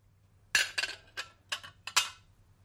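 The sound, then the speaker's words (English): Clinking of ceramic shards as pieces of a shattered plate are picked up from the floor: several short, sharp clinks in an uneven rhythm over a faint low hum. “she kneels on the floor and picks up pieces of a shattered plate.”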